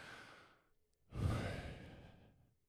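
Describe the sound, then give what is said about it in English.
A person breathes in and then out to imitate a divine name: a soft, airy inhale, a brief pause, then a louder, longer, breathy exhale that slowly fades. “it turns out that Yahweh is actually breathing. It's actually in and out. And the first words you say when you're born is you take your first breath, and it's Yahweh, right? Like, so it sounds like this.”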